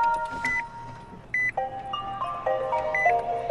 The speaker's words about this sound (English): That's a Nissan Leaf starting up.